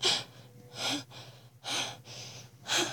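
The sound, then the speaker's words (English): Fast, heavy breathing: four loud, breathy gasps come roughly once a second, each a hissing rush of air, with quiet gaps between them and no talking. “And I can hear your breath coming faster above me.”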